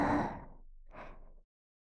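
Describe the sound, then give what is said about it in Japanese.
A deep breath: two soft, breathy bursts of air separated by a short pause, quiet and unvoiced, with no speech. “深呼吸。”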